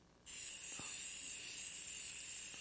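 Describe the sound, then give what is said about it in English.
A spray can hisses onto a picture frame, with one sustained, bright hiss that starts abruptly and holds steady for about two seconds. “I've got this spray can here, and if I was to spray a little bit of this on this picture frame,”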